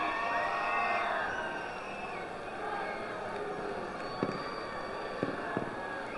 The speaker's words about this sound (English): Fireworks to the left of us. Fireworks to the right.